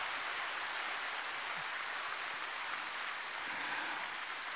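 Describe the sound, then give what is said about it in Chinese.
Applause from an audience at the end of a speech: a dense, steady wash of clapping runs without a break from start to finish, fairly faint. “哎呀，雷鸣般的掌声，让我想起了”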